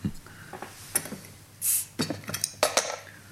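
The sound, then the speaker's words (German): Dishes clinking as a tray is set down on a table, with a beer bottle among them: many sharp chinks and knocks of glass and crockery in uneven bursts, with no talk. “Ich stelle das Tablett hier auf den Tisch. Und hier ist eine Flasche Bier”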